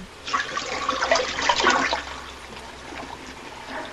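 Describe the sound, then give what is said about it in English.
A toilet flushes by itself, a rushing swirl of water that swells to a peak and then eases into softer running and trickling water. “The toilet's flushing on its own now.”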